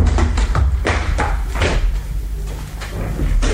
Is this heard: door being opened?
yes